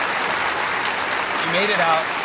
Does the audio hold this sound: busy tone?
no